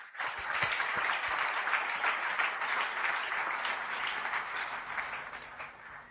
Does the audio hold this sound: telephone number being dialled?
no